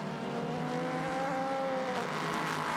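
Sports prototype race cars running at night in the Petit Le Mans round of the WeatherTech Sports Car Championship, three abreast heading downhill into an overtaking spot: a steady, fairly faint engine drone with a humming tone that shifts slightly in pitch, no talk.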